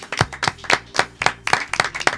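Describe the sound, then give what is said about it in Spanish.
Sharp hand claps from a small group, loud and distinct, coming in a quick, slightly uneven stream of many strikes over about two seconds. “Propongo un aplauso y nos vamos.”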